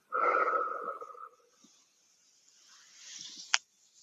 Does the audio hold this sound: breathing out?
yes

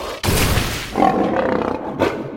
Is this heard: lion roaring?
yes

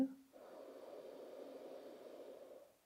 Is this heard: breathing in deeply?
yes

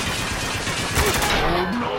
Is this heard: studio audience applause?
no

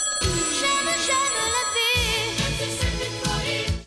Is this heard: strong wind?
no

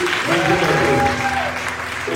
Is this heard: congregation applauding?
yes

